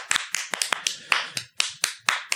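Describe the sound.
Hands clapping in thanks for a guest: many crisp, sharp claps in a loose, uneven rhythm, fairly quiet and with no voices over them.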